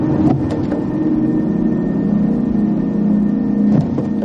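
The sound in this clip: A car being driven in a noir thriller film, a continuous, steady low engine drone with a humming tone that barely changes.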